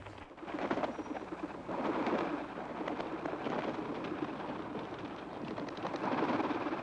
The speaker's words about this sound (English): Behind him, a few pigeons flutter down and settle on a metal climbing frame.